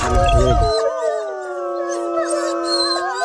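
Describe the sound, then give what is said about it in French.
Wolves howling in a chorus of several long, overlapping, wavering howls that sustain throughout, after a brief low noisy burst at the start. “il y a des loups là”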